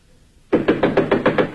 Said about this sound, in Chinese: 这时传来敲门声